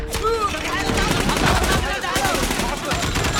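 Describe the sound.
Gunfire during a rifle engagement against a target 900 metres away: a dense, loud run of many sharp shots over a steady rumbling wash that fills the whole stretch.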